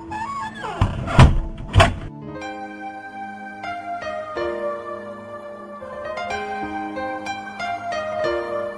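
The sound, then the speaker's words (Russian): A front door slams shut and is locked with a key: two heavy thuds in quick succession, followed by music that carries on alone. “потащила к парадной двери, вытолкнула на улицу и заперла за ней дверь на ключ.”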